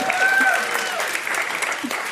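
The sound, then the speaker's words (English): An audience claps for a guest at an onstage interview, a dense, steady burst of applause lasting about two seconds while a voice speaks over it. “Round of applause for local girl.”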